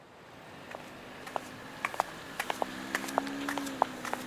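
Footsteps walking: light, sharp steps at an uneven pace that grow a little more frequent toward the end, over a faint steady hum.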